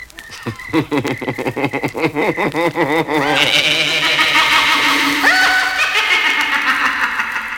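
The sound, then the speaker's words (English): A voice imitates the scary cackle of the wickedest witch in the world: a rapid run of high, quavering cackles, then a long, shrill, wavering tone that holds through the second half. “What was that scary sound? The wickedest witch in the world.”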